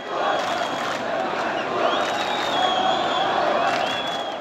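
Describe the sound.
Angry protest crowd at a rally in support of Palestinians during airstrikes on Gaza, a loud, continuous mass of shouting and chanting voices with rising and falling cries, steady in level throughout.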